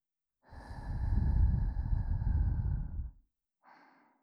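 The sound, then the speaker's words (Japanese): Soft breath is blown into an ear: one long, breathy puff of air lasting a few seconds, then a pause and a brief, fainter second exhale. “耳ふうってするな。”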